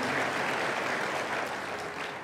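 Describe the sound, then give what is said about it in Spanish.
Sustained applause from a church audience, a dense, even wash of clapping throughout that tapers slightly at the end, with no voices. “Dele más aplausos al Señor.”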